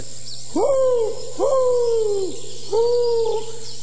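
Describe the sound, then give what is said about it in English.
An owl hoots three times, each drawn-out call opening with a quick upward swoop and then sliding slightly down. The hoots are loud and clear over a steady low hum. “It's the owl again.”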